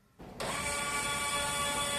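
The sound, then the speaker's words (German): Motor whir from a football-boot testing machine in a Puma development workshop in Herzogenaurach, pressing boot studs into a small patch of artificial turf and pulling back. The hum starts abruptly, then holds steady with a high tonal whine. “Ein von einer Maschine gehaltener Fußballschuh senkt sich ab. Die Stollen drücken sich in eine kleine Kunstrasenfläche. Dann wird der Schuh von der Maschine nach hinten gezogen.”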